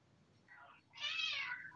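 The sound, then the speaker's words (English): Cat meowing: a short, softer meow followed by a louder, longer, drawn-out meow with a clear tonal quality, heard alone without talk. “even the cat's upset”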